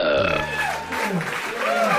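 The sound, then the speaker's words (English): A long, loud, croaking burp rolls on for about two seconds, with a voiced, gurgling tone that shifts in pitch. “I hate the burp. Aww. The ribbit, but not the burp. It's distinctive, though, isn't it? It's disgusting.”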